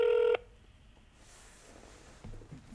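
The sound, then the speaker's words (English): A single short telephone keypad tone sounds as a call is dialed, loud and steady for a moment, then cuts off into near silence with a faint low rumble later. “Okay, we're giving Paul a call.”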